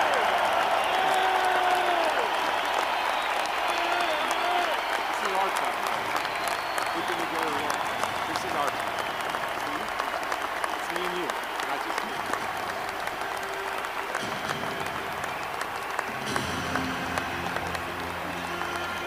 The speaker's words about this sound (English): fans, please stand up and help me congratulate my Buckeye brother, Chris Spielman, into the pocket.